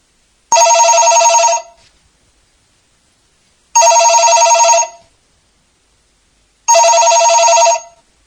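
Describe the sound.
A telephone ringing while a call is placed: three loud, bright electronic trilling rings, each lasting about a second, separated by roughly two-second silences.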